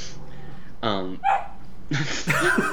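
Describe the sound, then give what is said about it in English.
A dog gives a few short barks and yips, alongside people talking. “That was the dog.”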